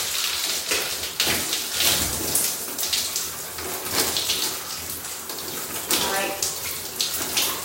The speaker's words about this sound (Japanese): 今、お顔を流してます。もうすごいすっきりする。泡とかをシャワーで流していって